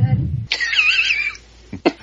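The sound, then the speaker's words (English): A man clears his throat near a microphone. A low rasp is followed by a short voiced tone and a couple of brief, harsh bursts. “I had just unmuted my microphone from clearing my throat.”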